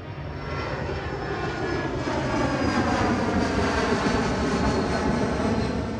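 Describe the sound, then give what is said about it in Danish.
Airplane engine during a flight east toward Japan, a steady droning roar with a faint high whine, growing slightly louder partway through and holding there. “Så er det med en vis spænding i maven, at musikerne endnu en gang stiger ombord på en flyver, og den her gang drager endnu længere østpå mod Japan.”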